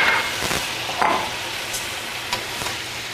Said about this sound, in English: I'm just going to add half a cup of dry white wine and let that keep going. And a little bit of lemon juice, fresh lemon juice.